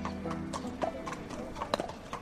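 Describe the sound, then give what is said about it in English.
Hooves clip-clop steadily as horses walk in from the fields to a racing stable on a snowy February morning. The footfalls are soft, irregular and overlapping. “Horses are coming in from the fields.”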